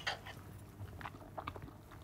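Quiet chewing of a home-cooked dish with an oyster mushroom filling, served with broccoli and sauce. A few soft, irregular moist bites and crunches are heard alone, without talk.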